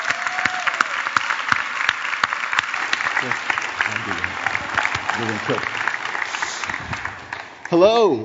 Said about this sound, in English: Put your hands together. Thunderous welcome to Brent Campbell, huh?